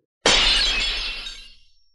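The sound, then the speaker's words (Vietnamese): A round golden glass mirror, a magical one floating in mid-air, shatters in a single loud, bright crash. A long glittering tinkle of breaking glass follows and fades away over about a second and a half. “Chỉ nghe một tiếng vang lên thanh thúy, kính tròn vỡ vụn ra, mất hết linh quang mà rơi xuống đất.”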